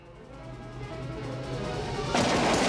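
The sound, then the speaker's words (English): Gunfire erupts as a man rounds a corner and comes under fire after jumping ashore from a docked boat; a low, rumbling bed builds steadily before a loud, dense burst breaks out near the end. “turns a corner and immediately comes under fire.”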